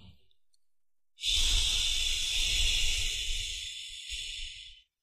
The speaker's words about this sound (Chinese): 哦，发这个气声吸就行了， 哎、把吸这个音发出来